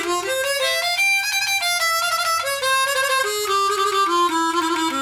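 A harmonica plays a sitar-inspired scale without quarter tones. Clear, sustained reedy notes step upward at first and then descend steadily in separate pitches, loud and alone with no talk.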